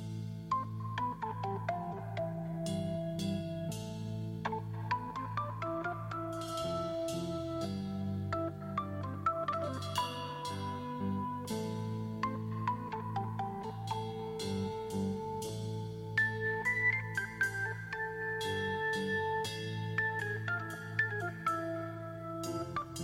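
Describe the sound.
Loud rock music plays without a break, with sustained organ-like chords under a melodic lead line that rises and shifts through several held notes, steady in volume and with no voices.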